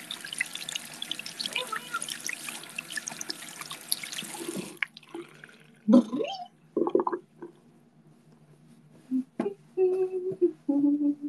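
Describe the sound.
Running tap water as hands are washed at a sink: a steady rushing stream for about five seconds that cuts off, followed by scattered drips and small clinks.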